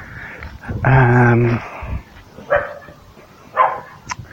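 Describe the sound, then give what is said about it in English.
Dogs bark in Broken Hill: a longer drawn-out call first, then a few separate short barks spaced out over the next few seconds. “Listen to the bloody dogs of Broken Hill.”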